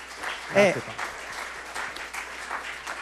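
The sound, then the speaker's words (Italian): Audience applause welcomes a speaker onto a stage, a steady wash of clapping with a brief voice rising near the start. “lo accogliamo con un applauso”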